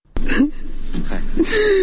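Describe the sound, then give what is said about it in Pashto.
An elderly father cries and wails in grief for his three sons killed in Nangarhar province. A sharp gasp breaks into strained, sobbing cries that rise into a long, wavering, high wail. “دا د هغه سپینجری پلار ژړا او فریاد دی چې تېره اونۍ یې په ننګرهار ولایت کې درې زامن ناڅرګنده وسلوالو ووژل.”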